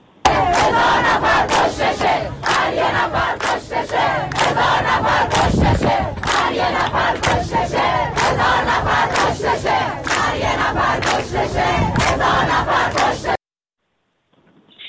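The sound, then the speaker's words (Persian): A protest crowd of mourners who gathered in sympathy chants slogans in a field recording. Many voices shout loudly in a dense, rhythmic mass with no break, then cut off abruptly near the end. “و به هر حال مردمی که برای همدردی آمده بودن باز هم ساکت نبودن و اعتراضهای خودشون رو به با شعارهاشون نشون دادن. بخشی از صدای اینها رو محمد من ضبط کردم، اگر قابل پخش هست الان میتونیم بشنویم با هم.”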